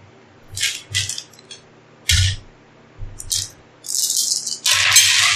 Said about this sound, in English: then I need 6 dice.